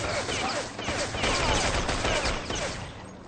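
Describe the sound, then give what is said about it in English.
Gunfire in a capture-the-flag video game match, with shots traded across a bridge toward sandbags: dense rapid shots and overlapping bursts that fill the whole clip at a loud, steady level. “As we see Eep being shot at by Bleed from across the bridge behind at the sandbags, fear.”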